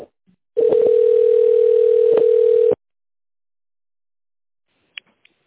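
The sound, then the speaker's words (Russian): Telephone ringback tone while a call transfers to an operator: one steady, mid-pitched tone lasting about two seconds, then silence broken by a couple of faint clicks. “Вызов переводится на оператора.”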